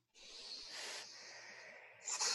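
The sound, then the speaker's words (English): A long, deep breath drawn as a steady, faint airy rush lasting about two seconds, ending in a brief, sharper burst of air. “I'm going to ask you to breathe.”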